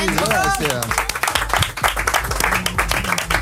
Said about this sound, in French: Les amis, moi, tu sais quoi, j'ai envie d'applaudir.